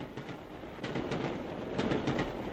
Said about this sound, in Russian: поезд набрал скорость.